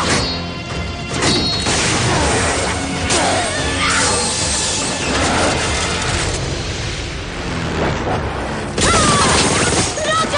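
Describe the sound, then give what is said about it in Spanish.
Loud crashes and smashing clatter fill a fight scene as steam tanks worn on the backs of zombie German soldiers are wrecked, a dense, continuous barrage with heavy booming hits. “Rocket trata de liberarse esquivando los golpes y destrozando los tanques de vapor que llevan los soldados zombies a la espalda”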